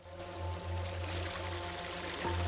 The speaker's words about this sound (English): Beckett and Miller are following the stream and its waterfalls downhill